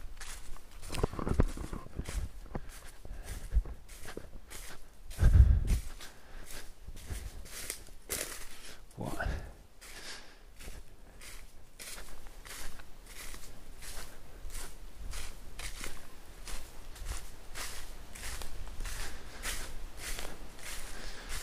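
Footsteps of someone walking at night through a forest along a fence. Many steady, crunching steps fall in a regular rhythm, with no voices.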